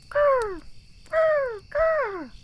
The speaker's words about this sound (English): if you hear the sound of seagulls